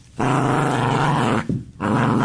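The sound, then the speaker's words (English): A dog growls in two long, deep, rumbling stretches split by a short pause. The growls are loud and steady, with no talk. “No, that's not. That's my dog. That's my dog.”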